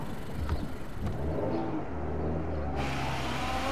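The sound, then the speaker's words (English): A car drives away, giving a steady low engine rumble and road noise that stay at an even loudness throughout, with no voices. “Ruth stepped out from the shadows as she watched Neville drive away.”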